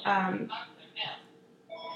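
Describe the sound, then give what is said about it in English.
A telephone rings faintly while someone is talking: speech fills the first part, then a short, thin electronic ringtone enters near the end. “anyways, ignore the phone.”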